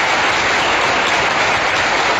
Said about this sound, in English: we really do owe them a big round of applause.